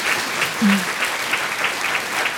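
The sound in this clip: Applause from a group of people: an even wash of clapping at moderate level for about two and a half seconds, with no clear voices over it.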